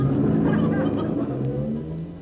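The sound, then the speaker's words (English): A bus drives off with a loud, steady engine rumble and low droning tones that ease slightly as it pulls away. “Uh-oh, there's the bus. Hey, wait! Wait for me!”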